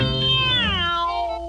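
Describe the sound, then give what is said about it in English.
A single loud, tonal cat meow that slides downward in pitch, then holds a lower, steady note to the end. “Come out, come out, my pretty kitten. Meow. Meow.”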